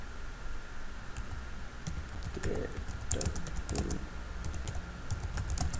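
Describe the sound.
Typing on a computer keyboard: scattered light key clicks at an uneven pace, fairly faint over a steady background hiss, with no voices.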